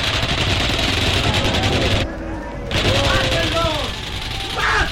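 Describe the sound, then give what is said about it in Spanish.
Rapid gunfire in an exchange with guards, shots fired at point-blank range and returned, forms a dense, loud, continuous roar of bursts with a brief drop partway through. Voices are audible amid the shooting. “En la primera ráfaga caen muertos 5, los otros reaccionan y responden al fuego.”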